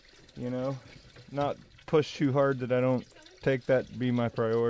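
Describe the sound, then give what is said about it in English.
Water being poured or drawn for a sled dog team at a race checkpoint: a soft splashing pour runs in the background while a voice talks over it throughout. “I think he's drawing water for his team there.”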